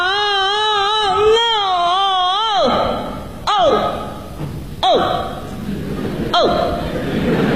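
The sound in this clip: A voice imitates the stylized crying of a Peking opera old-man role, opening with a long wavering wail, then breaking into several sharp, swooping sobs that fall in pitch, loud and strained.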